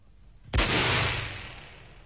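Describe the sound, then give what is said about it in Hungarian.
A single gunshot fired into the air during a pistol duel cracks out sharply and loudly, then a long ringing tail fades slowly over more than a second. “A levegőben lőtt, uram!”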